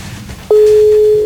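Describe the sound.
A telephone ringing tone sounds as a call is dialed out, heard as one long, steady, mid-pitched tone that starts about halfway through and holds unbroken to the end over faint background hiss.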